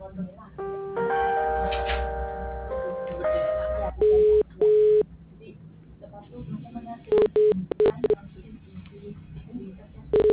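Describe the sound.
Telephone keypad dialing tones sound as several loud, short electronic beeps in separate bursts, following a stretch of sustained tones, with people talking around them.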